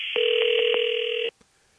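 An electronic telephone ring goes unanswered. A single steady warbling ring tone lasts about a second, then cuts off abruptly, followed by a faint click.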